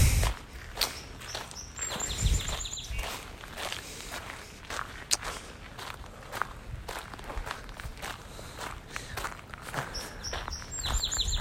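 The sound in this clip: Footsteps of someone walking outdoors in public, a steady even pace of soft steps, with bird chirps and tweets scattered in the background.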